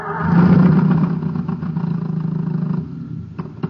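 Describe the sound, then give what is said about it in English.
An old motor engine running on ordinary fuel makes a loud, low, continuous droning rumble that holds steady and eases slightly toward the end, closing with a few faint clicks. “Poor old motor. It's got nothing to go on but ordinary fuel.”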